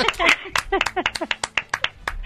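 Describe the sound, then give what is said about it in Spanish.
Hand clapping for a caller on a live radio show: many sharp, quick claps in a loose rhythm, loud and crisp, with a short voice sound near the start. “Ahora pues sí te ha ganado el aplauso.”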